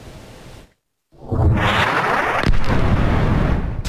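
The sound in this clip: Explosions of LGK-82, LGK-84 and Gözde laser guidance kit bombs hitting targets at the Konya Karapınar firing test range. After a brief silence a heavy blast swells into a sustained, loud, rumbling roar, with a sharper crack partway through.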